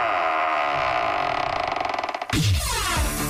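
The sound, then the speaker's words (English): A vault door opening sound effect: a sustained mechanical drone that turns into rapid ratcheting pulses, then an abrupt heavy clunk followed by falling, resonant metallic tones. “Okay, let's open up the vault door.”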